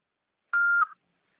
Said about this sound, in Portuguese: Sua chamada está sendo encaminhada para a caixa de mensagens e estará sujeita a cobranças após o sinal. Após o sinal, fale o seu nome e deixe o seu recado.